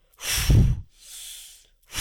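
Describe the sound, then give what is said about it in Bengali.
Breathing in through the nose during a gentle arm-raising breathing exercise: a strong airy breath, then a softer, longer one, with another beginning at the end and no talk. “আমি এটা যখন তুলছি শ্বাস নিচ্ছি নাকে”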